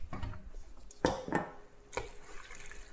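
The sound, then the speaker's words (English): Food with pieces of chicken and meat is moved from a pot into a serving bowl, giving a couple of soft clinks and scrapes against the dish with faint wet shuffling between them. “Let me just put this in a bowl to serve.”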